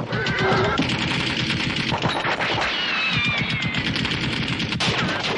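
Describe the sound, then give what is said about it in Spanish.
Rapid machine-gun fire from an armoured car raking soldiers beside a halted train in the desert: a loud, dense, continuous clatter of shots, with a horse's whinny and other battle noise mixed in. “la tanqueta de Brighton ametralla a los soldados turcos”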